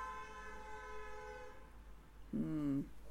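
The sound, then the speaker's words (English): Faint horns tooting: a sustained, reedy harmonic tone lasting over a second, then after a pause a shorter, lower toot near the end. “Ah, the tooting horns now.”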